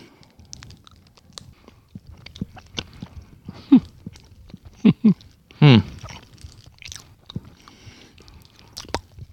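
Biting and chewing on a caramel cake during a tasting: a few crisp, loud bite and squishy chewing sounds stand out from faint mouth noises, with quiet gaps between them.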